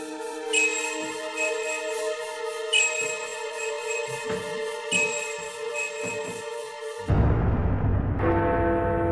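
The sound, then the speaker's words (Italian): Church bells toll, meant as bells ringing beneath the deep waters of Lake Alleghe: three slow, evenly spaced strikes with long, bright sustained ringing, followed near the end by a low, rumbling wash of noise. “le campane che suonano sotto le acque profonde del lago di Alleghe.”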